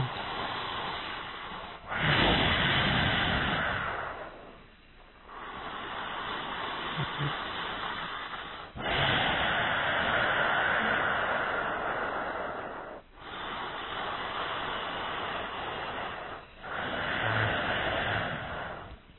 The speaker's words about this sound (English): breathe in through the nose and breathe out through the nose with the intention of producing that sound. You just have to squeeze the back of your throat a little bit.